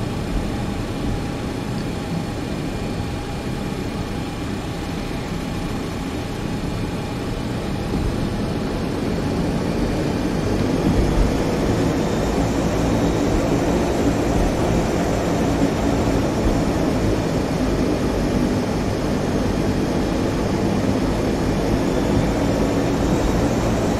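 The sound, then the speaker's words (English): Aircraft engine sound from a flight simulator video game's sound pack: a steady, low droning hum that swells slightly partway through and then holds, with no talk. “this particular sound pack, I don't know, it's, something is up with it, in this particular aircraft.”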